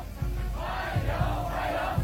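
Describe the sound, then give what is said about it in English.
Hundreds of young people chant a welcome while waving flags at a state welcoming ceremony at Beijing Capital International Airport, alongside a military honor guard and band. Loud, rhythmic group voices rise in a few short pulses over a brief moment. “The welcoming ceremony included a military honor guard, a military band, and hundreds of young people waving flags and chanting warm welcome.”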